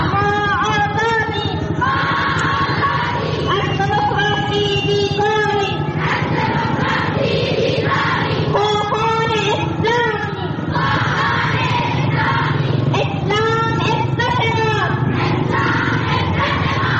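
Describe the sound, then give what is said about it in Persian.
Dozens of women chant together at a street rally in Zaranj, Nimroz province, held in support of the Taliban. Loud, steady rhythmic chanting of high voices continues throughout, repeating phrase after phrase. “این صدای ده ها زن در شهر زرنج مرکز ولایت نیمروز به حمایت از طالبان است که هفته گذشته راهپیمایی داشتند.”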